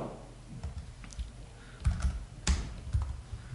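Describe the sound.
Keys clack on a computer keyboard as lines of text are typed in. The keystrokes are soft and irregular, arriving in quick bursts with small pauses between them.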